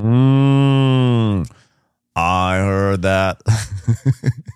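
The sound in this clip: A human voice imitates a cow mooing with one long, loud, drawn-out tone that breaks off at the end, followed by a short silence and then people talking.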